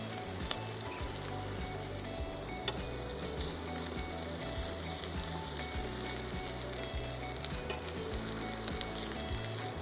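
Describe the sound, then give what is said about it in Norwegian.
Food frying in very hot oil in a pan while it browns: a dense, steady sizzle with scattered sharp spits and pops, heard alone without talking. “Det kan sprute litt olje hvis det er veldig varmt, sånn som det er nå, så vær litt forsiktig.”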